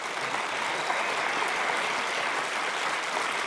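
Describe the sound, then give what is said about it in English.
An audience applauds to welcome a school's head onto the stage, with soft, dense, even clapping that holds steady throughout. “Can you welcome him up? Can you give him a hand?”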